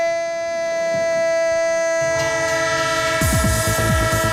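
A train horn sounds as a steady, sustained tonal blast, joined near the end by the rhythmic clatter of a rolling train's wheels on the rails.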